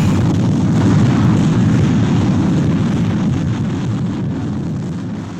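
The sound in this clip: Rocket engines firing at liftoff, a loud, continuous low roar with a rough, rumbling texture that holds steady and then slowly eases off toward the end.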